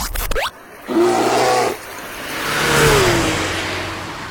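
A race car engine revs as a radio contest signal: a quick rising whoosh opens it, a short tonal burst follows, then a long roaring swell builds and slowly fades.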